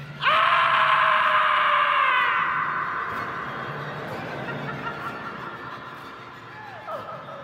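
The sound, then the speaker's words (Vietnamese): Anguished scream: one loud, drawn-out, high-pitched cry that slowly fades, followed by a short second cry near the end. “Nghe thấy tiếng kêu thảm thiết của Diêu Thanh Dương, Hàn Băng không kiềm lòng được mở mắt ra.”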